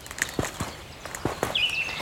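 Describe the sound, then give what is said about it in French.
Footsteps crunching through snow in a forest, a few soft, uneven steps at a walking pace, with quiet birdsong and a brief high bird chirp near the end. “venez, venez marcher dans la forêt du Plantoël.”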